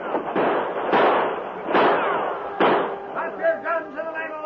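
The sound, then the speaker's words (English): Gunfire in a radio drama shootout: several sharp, loud bangs with decaying tails, spaced roughly a second apart, followed by a run of quicker, softer pops with ringing tonal streaks. “Then bullets began to fly from another direction.”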